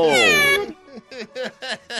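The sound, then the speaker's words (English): A cat meows: first one long, drawn-out, strongly voiced meow, then a string of several short, quick mews in an uneven rhythm, fairly clear and without other sounds. “There's the cat. Yeah, you're cute.”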